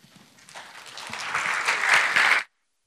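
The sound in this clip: An audience applauds to welcome a guest speaker at a church service. The clapping builds from scattered, faint claps into a full, dense ovation over a couple of seconds, then cuts off abruptly.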